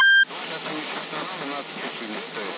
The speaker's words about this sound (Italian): No, gli ho sentito un bip, però è sparito.